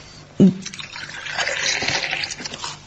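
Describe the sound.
Water pours into a drinking glass: a brief soft knock, then a steady splashing trickle that runs on to the end.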